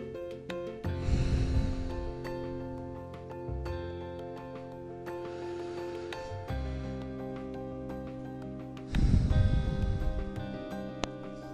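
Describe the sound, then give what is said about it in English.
Slow breaths exhaled through the mouth in a calm breathing exercise, a few soft, airy whooshes spaced several seconds apart over a steady, sustained tonal background. “And reach your lungs through your throat. And slowly exhale through your mouth.”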